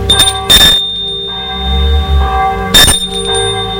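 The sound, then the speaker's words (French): A bell rung at a gate gives two bright, clanging rings separated by a pause of about two seconds, over a steady tonal background. “L'après-midi, très excité et ému, il sonne au portail.”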